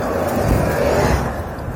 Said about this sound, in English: Hey, there's a bus.